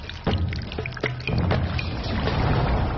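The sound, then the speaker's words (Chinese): Thick rice paste, made from soaked rice ground into a slurry and cooked, pours into a container in a continuous wet, sloshing stream, with a few louder splashes and a steady rush throughout. “熬制成米糊状后，放入容器中自然冷却”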